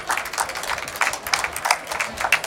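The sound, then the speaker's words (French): Audience applause welcoming a guest singer the day after her club concert: a dense, steady wash of many hands clapping, with a few louder bursts along the way. “je vous propose de l'accueillir. Merci, Lucia Rey. Bienvenue. Merci de l'applaudir.”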